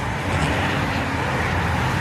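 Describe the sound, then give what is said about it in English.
Traffic sounds played back: an even, continuous rumble of road vehicles with no distinct events and no talk. “People have just been playing, traffic sounds. I can already hear”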